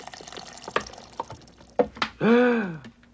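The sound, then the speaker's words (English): Molten wax is poured into a mold, filling it to the top of the neck. A few small drips and splashes lead into a short, loud gurgling pour whose tone drops as it fills. “What we're going to do is we're going to fill up this mold to the top of the neck.”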